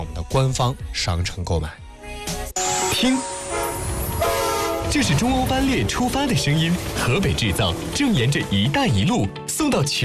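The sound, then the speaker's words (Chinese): China-Europe Railway Express freight train departing: loud, sustained horn tones with shifting pitch, layered over continuous rail clatter and rumble. “听，这是中欧班列出发的声音，河北制造正沿着“一带一路”送到全世界的货架上。”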